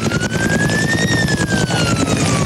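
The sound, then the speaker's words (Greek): Firefighting helicopters working a pine-forest wildfire, making water drops, give off a continuous rapid rotor chop. A wavering siren-like tone rises and then falls over the constant thudding. “Είναι η χαρακτηριστική ήχη από τις επιχειρήσεις σε πλήρη εξέλιξη, εναέρια μέσα, ελικόπτερα τα οποία επιχειρούν και πραγματοποιούν ρήψεις νερού αυτή την ώρα”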